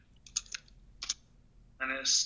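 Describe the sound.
Someone types sports betting picks into a computer, with a few short clusters of sharp keyboard clicks separated by pauses, followed by a voice starting to speak at the end.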